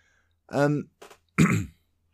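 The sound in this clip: Throat clearing from someone whose throat has run dry: three rough, growly bursts with short gaps between them, fairly loud and with no speech around them.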